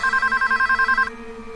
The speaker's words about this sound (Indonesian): Hingga tiba-tiba telepon karaoke ini menyala.